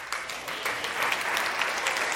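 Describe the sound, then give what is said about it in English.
Applause from an audience at an Easter church service, honouring team members. Dense, crisp clapping that swells in the first half second, then continues at a steady, moderate level to the end. “Round of applause to Micah.”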